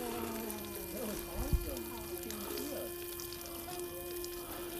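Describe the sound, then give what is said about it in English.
Running water pours and trickles as a lot of mud is washed off a small fairy figure. The flow is steady and soft, with one brief dull knock partway through. “Trying to wash the little fairy here. It's a lot of mud.”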